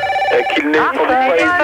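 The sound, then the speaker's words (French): A telephone ringtone plays as a run of bright, melodic electronic tones that shift in pitch and continue steadily through the whole clip, with a voice over it. “Ça commence à me prendre la tête, celui qui s'amuse avec un téléphone comme ça.”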